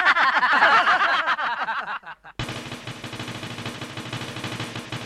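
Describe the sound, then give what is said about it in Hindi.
Rapid gunfire from a Sten gun used as a comic stain-removing gadget on a dress: a dense, steady rattle starts midway, after an earlier stretch of chittering, laugh-like sounds. “अभी इस Sten gun से कपड़े पे गिरे हुए stand एक minute में मिटा देता हूँ।”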